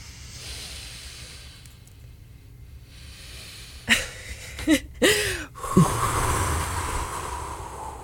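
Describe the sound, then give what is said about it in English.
A deep breath taken during a short guided relaxation moment: a few breathy inhale and exhale bursts stand out over a faint, steady background hiss. “Right now, let's take a breath.”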